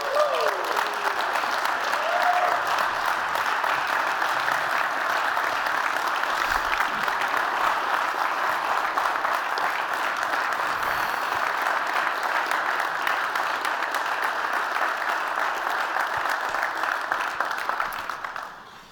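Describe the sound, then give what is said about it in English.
Sustained applause from a standing audience giving an ovation to a football punter at an event: dense, steady clapping that holds at full strength throughout and fades only at the very end. “some of you might be new with us and you have no idea why we would give a standing ovation for a punter.”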